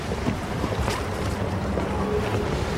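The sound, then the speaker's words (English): A boat pulls up to a dock amid steady wind and water noise. The rush is continuous and even, with no distinct knocks or bumps. “The boat pulls to a dock, and Craig climbs off.”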